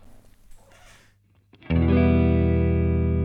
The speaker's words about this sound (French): Donc le son clair ou son clean, donc c'est un son qui est proche de celui de la guitare acoustique.